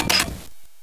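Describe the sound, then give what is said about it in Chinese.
Camera shutter taking a photo, a single short, crisp click burst that quickly fades into quiet. “当然我拍张照片了”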